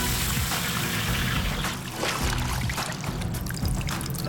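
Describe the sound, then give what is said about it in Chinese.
Green tea juice poured into boiling oil while making tea oil, giving a steady, loud hiss of sizzling and pouring liquid that runs through the whole clip without pause. “清油烧开，倒入茶叶汁”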